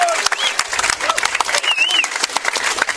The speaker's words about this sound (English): Pleased to welcome to the show for the first time, BYU linebacker Butch Pau'u. Give him a hand, everybody.